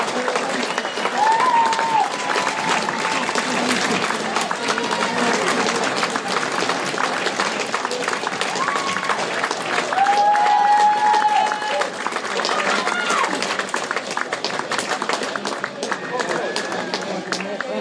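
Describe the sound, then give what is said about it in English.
A crowd applauds steadily as Longlevens and Gloucester City walk out onto the Meadow Park turf for an FA Cup second qualifying round match, with a large home attendance. The clapping stays dense and even throughout while a voice talks over it. “Great noise. Great noise. High attendance here at Meadow Park.”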